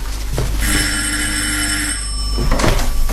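A telephone bell rings in one sustained, loud, even burst lasting over a second, with a steady low hum underneath and brief thumps before and after; no one speaks.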